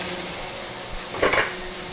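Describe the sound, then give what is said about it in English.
Onions and red peppers fry in a pan with a steady hiss, and a short, louder burst of stirring or rattling comes near the end. “And I'll go ahead and throw in the red peppers as well.”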